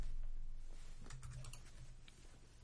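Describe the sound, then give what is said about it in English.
Keys of a computer keyboard being typed on, a few soft, quick clicks in short runs, faint over a steady low hum. “All right, I'm going to do it the old-fashioned way. I'm going to type it out.”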